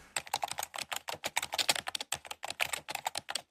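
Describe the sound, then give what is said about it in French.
Typing on a computer keyboard: many rapid, irregular keystroke clicks patter along without pause, crisp and alone with no voices. “Voilà, et ça tape et ça pianote.”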